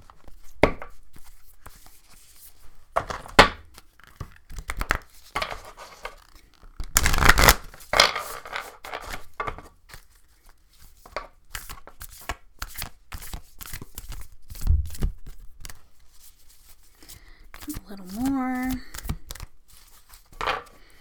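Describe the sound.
Someone cuts a deck of Illustrated Herbiary oracle cards by hand, producing scattered crisp taps, slaps and papery rustles of card stock, with a short vocal sound toward the end.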